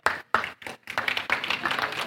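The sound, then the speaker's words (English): Audience applause for a pastor being introduced at an event, dense and continuous clapping that fills most of the short clip after a few brief opening bursts. “a round of applause.”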